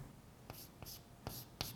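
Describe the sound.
Handwriting during a lecture on virtual and physical memory addresses: four short, faint, dry scratching strokes at uneven intervals, with no talk.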